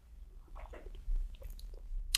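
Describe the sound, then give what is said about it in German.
A quick sip of espresso: faint, soft mouth and lip noises in a brief, quiet burst, heard alone without talk. “Aber zunächst trinke ich einen Schluck Espresso.”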